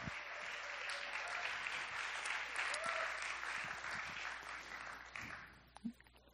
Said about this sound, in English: Let's give him a hand.